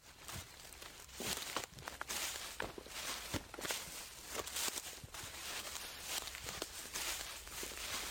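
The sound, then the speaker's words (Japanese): Footsteps of a group of people setting off on foot together, a dense run of many irregular, overlapping steps at a steady moderate level with no talk over them. “ごめんみんな、ここからちょっと歩くことになったから。 文句言ってもしょうがないし歩くか。”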